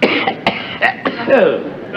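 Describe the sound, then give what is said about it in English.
A man coughing in a film scene: several harsh, raspy bursts in quick, uneven succession, mixed with voice-like sounds. “we think of him coughing as a flub”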